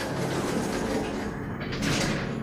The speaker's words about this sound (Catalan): Vigila la porta, que no t'agafi.